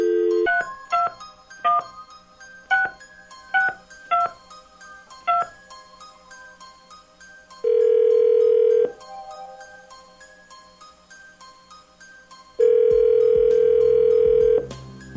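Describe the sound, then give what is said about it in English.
A telephone number is dialed as a quick series of short touch-tone beeps. Two long ringback tones follow, separated by a pause. “Dialing at random.”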